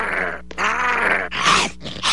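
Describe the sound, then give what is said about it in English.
A robot sentry dog growling: loud, rough, throaty growls come in a few sustained bursts with short breaks between them, with no talking. “Obviously, it's some kind of super sentry dog.”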